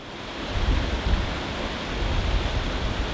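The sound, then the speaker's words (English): The James River flowing at Richmond, Virginia: a steady, full rushing wash of moving water with gentle swells in loudness and no other sounds. “the sound of the James River at Richmond sets the stage for a headwaters mystery sound”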